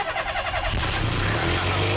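A car engine starts with the bonnet open: a brief patterned cranking gives way to a loud, steady low rumble as the motor catches and keeps running.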